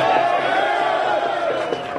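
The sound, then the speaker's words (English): A crowd of taxi drivers at a protest cheers and shouts in reply to a call, a sustained roar of many voices that holds steady and eases slightly toward the end. “Can I get a cheer here from everyone who has a family to feed?”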